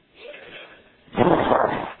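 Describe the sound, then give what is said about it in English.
A person imitating a growl: one rough, throaty, voiced rumble that swells loudly and holds for almost a second, after a fainter breathy vocal sound. “You growl at them.”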